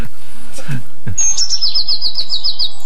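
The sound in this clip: Blue tit song: a rapid trill of many repeated high, thin notes, clear and fairly loud, after a few soft faint sounds.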